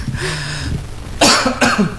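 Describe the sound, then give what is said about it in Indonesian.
Coughing from a person: two short, harsh, breathy coughs in quick succession, loud against a low background murmur. “Ya, aduh, agak batuk nih.”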